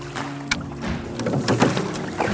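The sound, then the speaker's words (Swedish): Oars dip and pull as a rowboat moves through the water, giving a few soft splashing strokes over a low, steady wash of water and wind. “Men du vill ro lite till eller? Ja, vi kör några repor till.”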